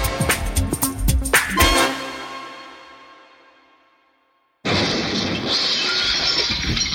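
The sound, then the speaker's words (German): Car window glass smashes as a sound effect in a German advert for auto glass repair: several loud crashing impacts with shattering and ringing, then a long tail that fades into silence before another loud sound cuts in. “Oh, Scheibe kaputt? Dann sofort zu United Autoglas. Es hat mal wieder gekracht und es entsteht ein Schaden am Fahrzeug.”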